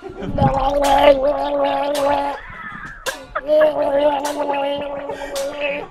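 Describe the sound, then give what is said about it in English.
A person gargles in two long, throaty bouts split by a short pause near the middle, a wet, bubbling rattle riding on a steady voiced tone. “You gotta gargle on something.”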